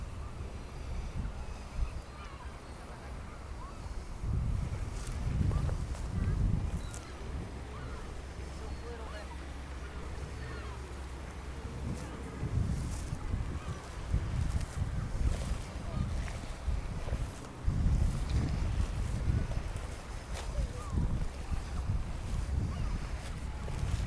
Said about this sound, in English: taking in not just the sound of the water, but the whole scene here. So I'll leave this with you for a couple of moments before I move on.